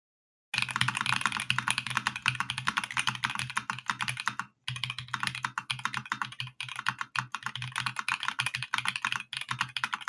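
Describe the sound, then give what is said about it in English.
A mechanical keyboard fitted with Holy Panda switches is typed on fast in a typing test. Many crisp, tactile keystrokes run in a dense, steady stream, with one brief pause partway through and no voices. “While I really, really, really like Holy Pandas, I think they sound phenomenal. If you guys want a little type test, you guys want a little type test right now? Let's do a little type test.”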